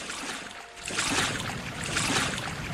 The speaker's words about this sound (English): We're going to paddle our boat. Da boat, da boat. Paddling da boat.